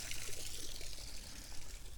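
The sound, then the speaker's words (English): Water trickling over a small waterfall, a steady, continuous rush of splashing and babbling water that holds an even level throughout, with no voices. “Walking by the little waterfall here.”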